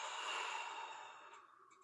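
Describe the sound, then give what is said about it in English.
One long, deep breath comes as a soft, breathy rush like a sigh, steady at first and then fading over about two seconds, faint and alone. “everybody at home listening, deep breath in. Deep breath out.”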